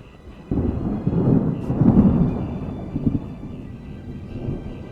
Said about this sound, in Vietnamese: Đúng lúc này trên bầu trời bỗng nhiên xuất hiện quầng mây đen kèm theo những ánh chớp giật màu đỏ cùng với những tiếng sấm khàn đập trời.